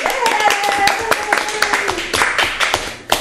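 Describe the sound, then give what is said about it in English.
A person claps hands in quick, uneven bursts of sharp claps while voices talk over them. “I don't know why he's clapping either.”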